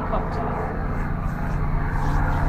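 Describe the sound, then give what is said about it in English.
Helicopter flying overhead, a security helicopter circling the area, heard as a steady low droning rumble with a constant, even loudness throughout. “it definitely sounds like a helicopter. Yeah, that's a helicopter. That's probably a security helicopter just flying around”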